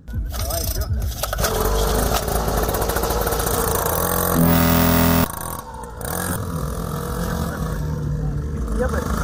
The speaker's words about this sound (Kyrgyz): Мындай жарышка катышуу үчүн спорттук атайын мотоцикл керек.